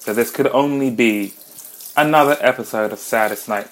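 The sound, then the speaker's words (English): A kitchen tap runs while dishes are washed, a steady rush of water under a man speaking. “Why, it's the sound of the tap in the kitchen, because I am washing dishes.”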